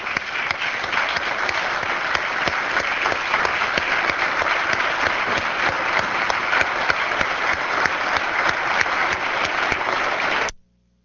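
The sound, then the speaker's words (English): A room of people at a legislative session gives a long round of applause: dense, steady clapping from many hands that stays level for about ten seconds, then stops abruptly. “Let's give them a big round of applause.”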